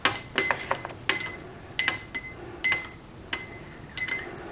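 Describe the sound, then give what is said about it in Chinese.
A spoon clinks against a glass while fragrant ginseng powder is stirred in, giving a quiet series of many sharp, bright taps in an irregular rhythm, with no voices. “香参粉，全倒进去。搅拌。”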